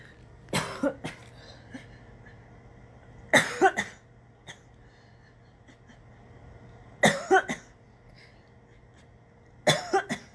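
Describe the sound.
Coughing and throat clearing from a tickle in the throat come in four short bouts of several rough hacks each, separated by quiet pauses, with no talking.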